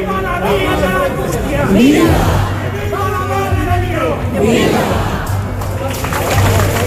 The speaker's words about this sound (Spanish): El sonido de la salida de la Virgen de las Angustias desde su basílica era este que van a escuchar.